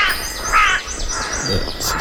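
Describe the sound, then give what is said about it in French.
Rook calls: a few harsh, raspy caws, moderately loud, with no talk over them. “C'est le corbeau freux, du coup. Corbeau freux.”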